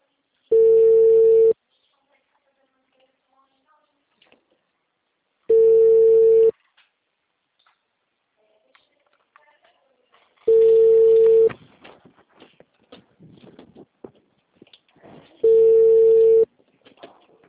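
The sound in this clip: An unanswered telephone call ringing back: four steady one-second tones spaced about five seconds apart, with faint scattered background noises in the gaps.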